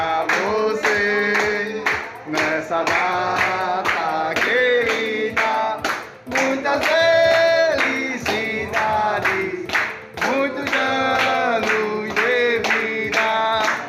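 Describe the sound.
Voices sing a birthday song for someone turning 18, loud and continuous, with steady rhythmic hand clapping beating through the whole stretch.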